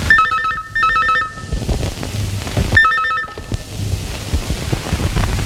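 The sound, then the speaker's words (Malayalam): An incoming call on a telephone, its electronic ringtone trilling in short repeated bursts, two close together and then another after a pause, over steady background noise. “അങ്ങനെ ഒരു ദിവസം രാവിലെ വിനയന് ഒരു phone call വന്നു.”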